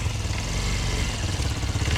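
Engine running at steady revs: a dense, loud low rumble with mechanical clatter that holds even throughout the short stretch, with no voices over it.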